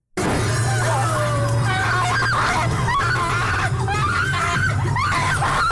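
A woman screams in fright inside a haunted house, loud and sustained with a wavering, strained pitch, carrying on almost without pause.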